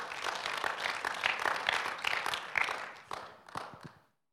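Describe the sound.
Audience applause welcoming a speaker, a dense patter of many hands clapping at moderate loudness that thins out and stops after about four seconds.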